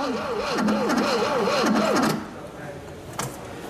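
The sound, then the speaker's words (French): Car engine cranking: the starter turns over with a steady, wavering rhythmic churn for about two seconds, briefly sounding as if it might catch, then cuts out without the engine starting, leaving quiet noise. “Il démarrera jamais. Bon, d'accord, il a un peu tourné. Après un tout sautement encourageant, le moteur refuse de tourner.”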